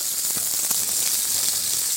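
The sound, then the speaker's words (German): Meat sears in a hot frying pan while being turned to brown every side, giving a steady, even sizzling hiss that holds at one level throughout with no voices. “Wie gesagt, von allen Seiten möchte ich diese Röstaromen haben. Jetzt noch auf die schmalen Seiten und auf die Endseiten. Okay, also einmal richtig schön in der Pfanne durchdrehen quasi.”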